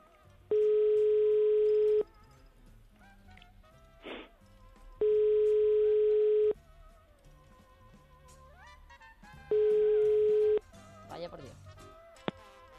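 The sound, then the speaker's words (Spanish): Telephone ringback tone while calling a number: three long, steady buzzing tones of equal pitch, each about one and a half seconds, separated by longer gaps with faint clicks and background noise. “estamos llamando a otro número. Estamos llamando a otro número que también es Málaga”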